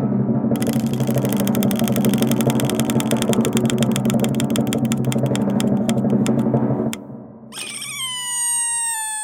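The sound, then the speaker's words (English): A homemade spinning wheel built from old cards, a lazy Susan and nails clatters as cards flick past the nails: a loud, rapid run of ratcheting clicks that gradually slows and then stops. “I've got a wheel here made up of old cards and a lazy Susan and some nails. So I shall spin that.”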